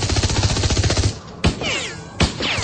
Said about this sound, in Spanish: Diana los mantiene alejados con el picante fuego de la ametralladora automática.